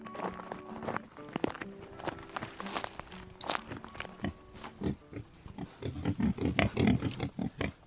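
Farmed Irish wild boar grunt amid shuffling footsteps on a farm on the Kilkenny-Waterford border, with many quiet, rough grunts that grow denser and more rhythmic toward the end.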